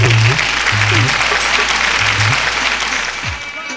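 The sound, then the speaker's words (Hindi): Loud, thick applause welcomes a guest rasiya singer at a stage programme, with low sustained tones running beneath the clapping. The applause thins and softens toward the end. “एक बार जोरदार ताली बजा करके स्वागत करेंगे।”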